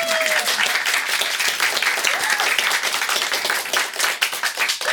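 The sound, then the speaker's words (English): Applause from a live audience at an evening quiz show with a band on stage, honouring the writer of the questions: many hands clapping in a dense, sustained, steady wash from start to finish. “the writer of these questions is in our audience tonight, and I think we should give her a big hand right now”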